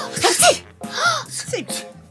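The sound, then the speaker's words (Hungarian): A voice imitates loud sneezing, giving a few sharp, breathy sneeze bursts with voiced, pitched tails, one after another and without other sounds. “A poroszlók kélyes arccal bólogattak. Azért! S nagyot tüsszentettek. Ők is.”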